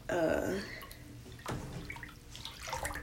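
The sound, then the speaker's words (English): Bathwater sloshes and laps as someone sits in the tub, with soft swells of movement and a more distinct slosh at the start and again midway. “such as right now I'm sitting in the tub and it feels wonderful.”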